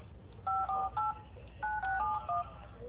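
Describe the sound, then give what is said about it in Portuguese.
Touch-tone keypad beeps sound as a phone number is dialed. The short, bright tones come in two quick bursts, with a brief pause between them, over low background hiss. “Deixa eu ligar para uma cliente aqui rapidinho”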